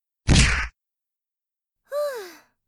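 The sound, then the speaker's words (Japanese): A single heavy, broad whack from a lariat strike in a fighting game, followed after a short silence by a brief pained vocal groan that bends in pitch. “ふう、私のラリアットの味はどうかしら。あらあら、たった一発でダウンしちゃって情けないわね。”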